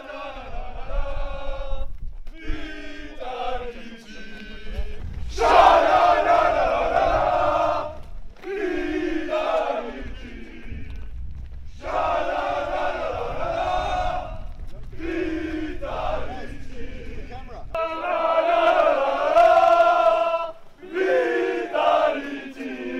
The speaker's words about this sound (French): Ils ont chanté, ils étaient tous ensemble. Allez, on profite des images.